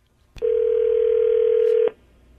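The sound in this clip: One ringback tone of an outgoing telephone call sounds as a steady mid-pitched hum of about one and a half seconds, with a click at its start and end and no talk.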